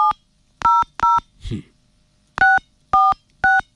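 Six short dual-tone keypad beeps from a phone as the code *821# is dialed. The beeps are evenly pitched and crisp, with a longer pause midway that holds a brief rustling burst.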